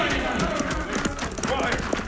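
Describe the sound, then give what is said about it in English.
Horses gallop with a rapid, continuous drumming of hooves, loud and steady throughout, mixed with voices. “riding this way at full gallop”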